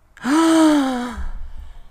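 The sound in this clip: A sharp, voiced gasp, a single loud intake of breath that catches into a clear tone. It holds for about a second, then fades and dips slightly in pitch before a low rumble at the end.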